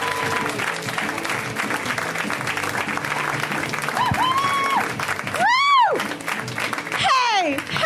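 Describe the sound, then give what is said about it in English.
An audience applauds to welcome a performer to the stage, with dense, continuous clapping and cheering, and a few loud swooping whistles rising and falling near the end. “Ladies and gentlemen, please welcome to the stage Sophia Alexander. Give it up for Sophia. Come on!”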